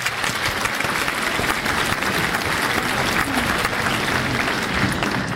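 An audience applauds with continuous, dense clapping that holds a steady level from start to finish.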